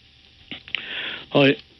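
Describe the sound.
A person clears their throat: a rough, breathy rasp followed by a short voiced grunt, moderately loud and brief.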